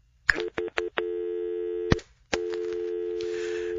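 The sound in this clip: Telephone tones set off by accident on a call: a few short beeps, then a long sustained tone, a brief break, and a steady tone running to the end.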